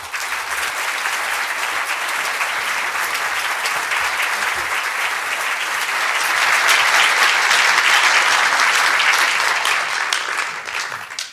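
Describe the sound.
Audience applause greets a speaker arriving for an evening talk, a dense, steady wash of clapping that swells midway and then begins to thin out near the end.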